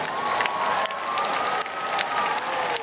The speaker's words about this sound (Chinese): 希望大家用最热烈的掌声